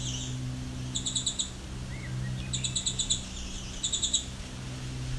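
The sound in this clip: Two birds singing at each other on either side of a trail: three short bursts of rapid, high-pitched chirps answer one another over a steady low hum.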